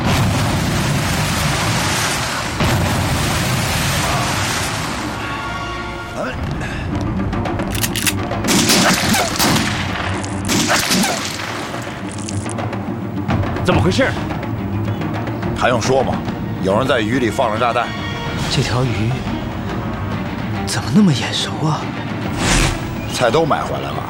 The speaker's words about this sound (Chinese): 有人在鱼里放了炸弹。